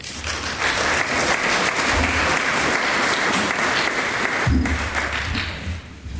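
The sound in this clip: Audience applause welcoming a speaker to the stage for a Welcome to Country at a gathering; full, sustained clapping that stays strong and even for several seconds, with no voices over it.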